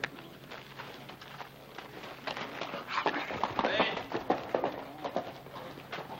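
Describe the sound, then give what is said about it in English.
Hoofbeats of a horse ridden down a street, a rhythmic clip-clop that grows louder through the middle before easing slightly. “That's Hoss Cartwright riding down the street.”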